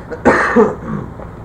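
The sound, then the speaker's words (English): A person gives a short, harsh cough of two quick bursts, followed by quieter throaty rasping. “I've got a little... cough. I shouldn't do that.”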